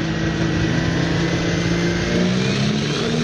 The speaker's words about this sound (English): There we go. Pull it. Nice pull. Pull it. It was Tractor Day at Effie Medill High School in Bingham, which is just beside us, yesterday.